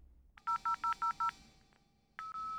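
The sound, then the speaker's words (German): Mobile phone keypad tones as someone dials the police. Five short, evenly spaced beeps come in a quick run, then after a pause a longer, steady tone sounds. “Sie tippt die 110 ins Handy ein.”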